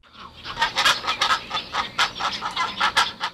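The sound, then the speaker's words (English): Baby pelicans calling, with many rapid, harsh, raspy chirps repeating in a busy, fairly loud run of overlapping calls. “That's the sound of baby pelicans before they grow into adult birds.”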